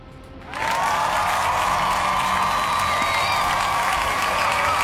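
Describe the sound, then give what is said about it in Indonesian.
After a brief hush, audience applause and cheering burst in abruptly and hold at a steady, loud level, with clapping blended into a crowd roar. “Waduh, ada 40% suara nih. Kita kasih tepuk tangan ya.”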